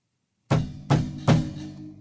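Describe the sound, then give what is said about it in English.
Three heavy knocks on an apartment's front door, struck with a gun by a police sergeant before dawn: sharp, solid thuds, the second and third closer together, each ringing off briefly, with silence before the first. “There was no answer, so he knocked with his gun.”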